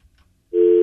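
A telephone busy signal after a call-in caller hung up or the call dropped: after near silence, a loud, steady electronic tone starts halfway through and holds to the end.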